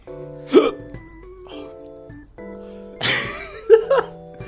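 Hiccups from someone eating spicy food: a few brief, abrupt vocal jolts spread over several seconds above soft tonal background music.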